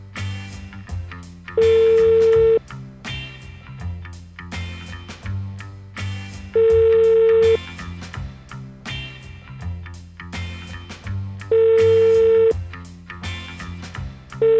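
A telephone call rings out unanswered, with a tone of about one second repeating three times at regular five-second intervals over a steady humming, tonal background.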